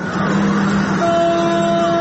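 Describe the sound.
Car horns honk over steady traffic as an opposition protest motorcade drives through the city. One sustained horn tone gives way midway to a higher, overlapping pair of tones, with no voices.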